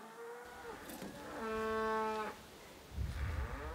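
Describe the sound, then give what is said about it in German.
A herd of cattle is lowing on a walk along a fenced path, with one long, drawn-out moo standing out clearly above softer, rougher animal sounds and rustling. “Die älteren Rinder kennen den Weg und gehen voraus.”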